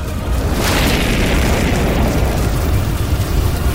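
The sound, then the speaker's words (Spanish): A wall of fire bursts up and engulfs a body, heard as a loud, booming roar with a deep rumble that holds steady and unbroken for the whole clip. “Una muralla de fuego se levantó, envolviendo el cuerpo de Aguilar, calcinándolo en segundos.”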